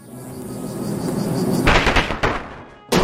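Battle sound effect for the insect-type special attack Plague in a video game, a swelling noisy drone that builds, then breaks into loud crashing bursts, followed by a short gap and another sharp burst at the end.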